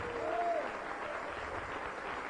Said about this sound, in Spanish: Dale un aplauso al Rey.